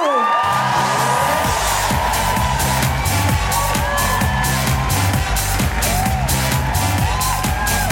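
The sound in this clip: Audience whooping and cheering in welcome for a performer at an Amnesty International comedy benefit show, a loud, unbroken roar of voices with high whoops rising above it throughout.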